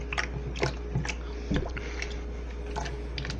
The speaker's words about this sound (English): I hope everyone in chat is enjoying that sweet fucking turkey ASMR.